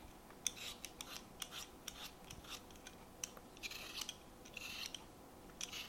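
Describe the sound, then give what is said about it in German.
Scraping strokes of a peeler on potatoes being peeled for homemade crisps: many faint, quick rasping scrapes repeating irregularly, with no voices. “Zuerst schäle ich die Kartoffeln.”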